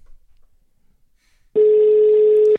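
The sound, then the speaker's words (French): A telephone ringing tone sounds on an outgoing call: after near silence, one steady, loud, mid-pitched tone holds for about a second and then cuts off. “Mais on va demander à, Clément de nous préciser tout ça s'il décroche. Il serait capable de pas décrocher.”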